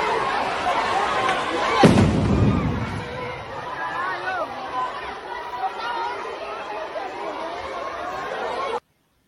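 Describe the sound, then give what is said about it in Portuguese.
A single loud blast from a bomb thrown by an armored police vehicle into a school courtyard in the Maré favela, Rio de Janeiro, cuts through steady crowd chatter on a phone video. The murmur of voices carries on after it. “aquilo ali era um caveirão jogando bomba no pátio onde as crianças estavam.”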